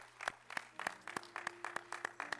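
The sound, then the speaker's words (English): Clapping from a church audience applauding a choir and young people: many quiet, crisp claps falling in a steady, even beat over a faint low sustained tone. “Let's give that choir, amen, and our young people a round of applause.”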